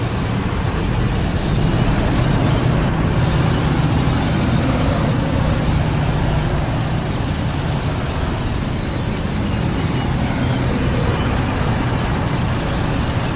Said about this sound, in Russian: По дороге едут танки, покрытые маскировочной сеткой и ветками деревьев.